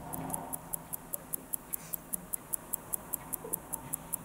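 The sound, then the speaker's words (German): Rapid, even ticking of a mechanical watch as its balance spring oscillates and drives the escapement's pallet lever, giving many crisp, faint ticks at roughly five per second over a low hiss. “und schon läuft die Uhr. Durch die Schwingung der Unruhspirale wird der Anker angetrieben, der hin und her schaltet und das Räderwerk langsam ablaufen lässt.”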